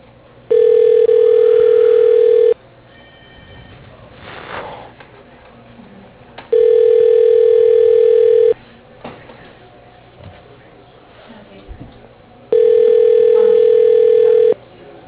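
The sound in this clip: A telephone line rings while a call is transferred to voicemail: three steady, loud, single-pitched ringback tones, each about two seconds long, separated by longer pauses with faint low background noise.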